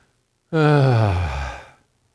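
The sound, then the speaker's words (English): A church audience groans on cue: one long, voiced groan that begins abruptly, holds loudly for over a second, slides downward in pitch and then fades out, with no talk around it. “I'd like you to try groaning with me.”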